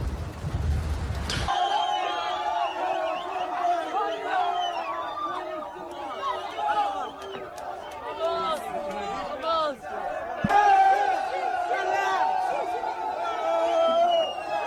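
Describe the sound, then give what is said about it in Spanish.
A crowd shouts a chant for Pedro Sánchez as it storms in, many voices overlapping in a loud continuous roar of shouting and babble, with a heavy burst at the start and a fresh surge later on. “Oye, quiero que escuchéis este audio, porque cuando nos invaden al grito de Viva Pedro Sánchez, escuchen.”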